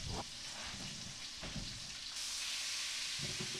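Bacon frying in a pan: a faint, steady crackling sizzle with a few sharper pops, the hiss turning brighter and more intense partway through.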